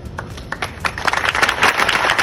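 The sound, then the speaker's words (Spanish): Applause closing an emotional tribute, opening with a few scattered, separate claps that quickly thicken into louder, denser clapping from a crowd. “que acababa con estos aplausos”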